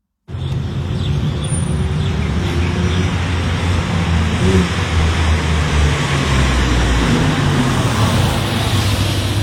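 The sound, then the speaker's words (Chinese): Porsche engine sound from a song intro: a loud, steady low drone under a wide roaring hiss that holds nearly constant throughout, with no clear revving. “听到那个车的声没？人家这歌啊，就这个、这汽车的声，找的都是保时捷。”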